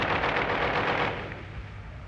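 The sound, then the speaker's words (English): A caliber .50 machine gun fires a dense, continuous burst of loud, rough reports that tails off after about a second into a lower lingering rumble. “The caliber 50 machine gun.”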